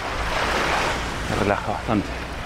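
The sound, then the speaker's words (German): Sea waves rush steadily at the southernmost tip of the Americas in Tierra del Fuego, where people go ice bathing. The surf forms a continuous broad hiss that swells a few times toward the end. “Plötzlich wird alles still und das ist etwas ganz anderes. Man hört nur das Rauschen des Meeres.”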